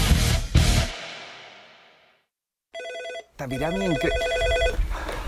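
A telephone rings with a call to an office, first a short electronic burst of ringing, then after a brief gap a longer, warbling ring, loud and clear after a fading swell of sound.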